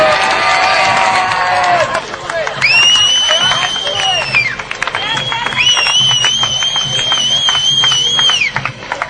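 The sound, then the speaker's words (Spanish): A crowd applauds at a gaming tournament prize ceremony. Dense clapping runs throughout, joined by loud, sustained high-pitched whistling tones in a few long bursts. “El último aplauso fuerte, por favor. Que se oiga, que todavía estamos aquí.”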